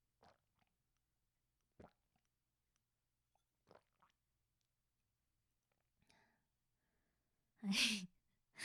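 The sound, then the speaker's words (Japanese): Gulping swallows of a sweet-smelling aphrodisiac drink: a few faint, widely spaced throaty clicks, then a loud breathy exhale near the end, alone in a quiet setting. “がっつりと飲みました。がっつり飲みましたね。はい、聞こえましたかね。私ゴキゴキと飲む音が大きいので多分聞こえたと思うんですけど”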